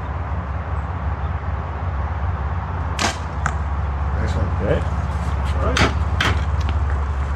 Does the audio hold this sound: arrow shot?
yes